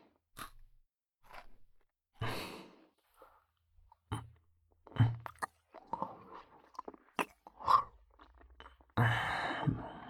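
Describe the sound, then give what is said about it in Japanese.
Chewing food with the mouth open gives faint, wet, crunchy bites in many irregular bursts, heard alone. “口開けて、噛んで柔らかくして、俺のために。そうしたら俺も食べられるから。”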